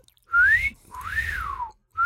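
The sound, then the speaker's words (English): A person whistles loud, clear tones: two long whistled notes, the first gliding upward and the second rising then falling, with a third note starting right at the end and a low rumble beneath. “And she looks at him and she whistles.”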